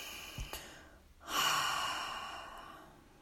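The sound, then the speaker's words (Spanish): One slow, deep breath during a guided relaxation exercise: a soft, airy rush of breath that swells, then fades gradually. It is quiet and heard alone. “Respira profundo.”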